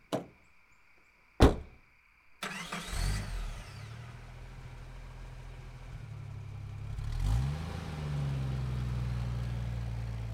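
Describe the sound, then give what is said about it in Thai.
Car engine running with a steady low hum after two sharp door-like thumps, as a car drives up to an intersection beside a university architecture faculty; the engine swells briefly near the end. “เบนซ์ขับรถมาถึงจุดที่นัดหมายกับรุ่นน้องที่แยกคณะสถาปัตย์”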